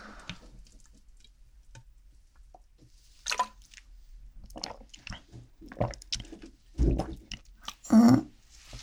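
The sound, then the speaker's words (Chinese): Someone drinking a strange-tasting drink: sporadic faint wet mouth sounds and small gulps, quiet with pauses between them, and a few louder swallows toward the end. “真的假的？我感觉这东西怎么喝都会比较怪吧？对身体好吗？好吧，那我再喝喝。”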